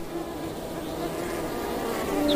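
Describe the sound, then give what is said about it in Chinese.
Bees buzz in a cold-climate habitat, vibrating their wings in a continuous low drone that swells slightly toward the end, with no voices. “这里的蜜蜂长有浓密的绒毛，蜜蜂通过振动翅膀产生热量”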